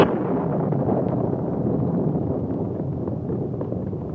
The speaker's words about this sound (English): Suddenly there came the sound of a blast, which came from high on the hill they were skirting.